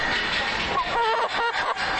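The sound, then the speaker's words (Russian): Call of an exotic chicken from the Indonesian island of Java: short tonal, cackling notes over a dense, noisy background hiss. “Вот, например, курица, которая подает голос так. А вот голос другой заморской красавицы.”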